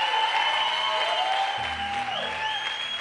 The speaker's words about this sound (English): Give the Lord a shout of praise.